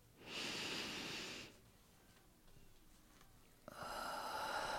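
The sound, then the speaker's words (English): Deep breaths taken slowly, heard as two long, airy rushes of air, each about a second long and separated by a quiet pause, with no talk. “let's take that moment together right now to take a very deep breath.”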